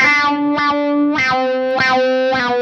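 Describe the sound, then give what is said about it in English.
An electric guitar plays through an RMC wah effect pedal that is switched on. It gives a thick, distorted, harmonically rich tone, with sustained notes struck again at a steady, repeating pulse and no voices. “So like when I click it on, it reminds me of those Clapton-esque tones that I like from like the Cream stuff.”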